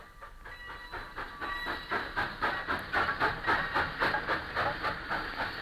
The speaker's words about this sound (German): Schon am nächsten Tage fuhren die Gymnasiasten mit den schnaufenden Zügen heim.